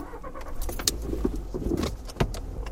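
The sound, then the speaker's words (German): Car driving as it turns left onto a bumpy dirt field track at an energy facility site, with a steady low road rumble, jangling keys and rattles, and a few louder bumps from the rough ground. “So, wir fahren links rum. Wir biegen auf einen holprigen Feldweg.”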